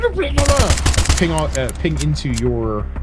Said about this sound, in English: Rounds from F903 assault rifle